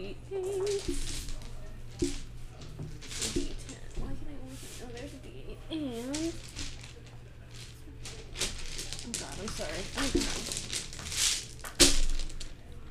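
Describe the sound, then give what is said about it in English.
Many dice clatter and rattle in quick bursts as a big handful is rolled during a tabletop roleplaying game, heard under lively overlapping talk. “Roll all the dice. Yeah, I like rolling dice. Do all the dice. Do all the dice.”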